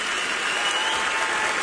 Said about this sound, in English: on WSM Radio, that is the sound of a standing ovation for the U.S. Army Chorus tonight at the Grand Ole Opry.